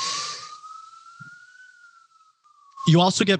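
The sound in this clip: An emergency vehicle siren passing as a single loud, steady wail that rises slightly in pitch, then slides down and fades out, followed by a voice speaking.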